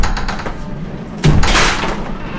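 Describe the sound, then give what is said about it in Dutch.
A door is kicked open with a single loud, heavy thud that cuts through steady background noise, followed by a rough, rushing rattle as it gives way. “Meneer, ek gaan hom hierdie deur oopskop.”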